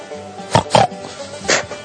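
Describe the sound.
Three short nasal pig grunts, two close together and a third after a brief pause, each fairly loud over a faint steady background.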